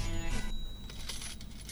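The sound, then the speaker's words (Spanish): Coins clinking with a cash register, in a 1970s rock context: a few bright metallic clinks and rattles with ringing tones at the start, then scattered smaller jingles, fairly loud and without talk. “Esas monedas, esa caja registradora.”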